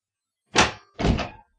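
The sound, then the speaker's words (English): A door being opened, heard as two heavy, dull thuds in quick succession against silence. The second thud is slightly longer than the first. “Open the window. Yes, Miss Smart. Open the door.”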